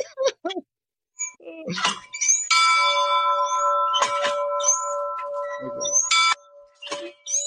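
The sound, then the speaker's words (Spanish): A bell is rung, giving a bright clang that rings on with a sustained metallic tone for several seconds, with people talking before and after it. “hombre ver campana, hombre querer tocar campana. Bueno, ¿puedo tocar la campana?”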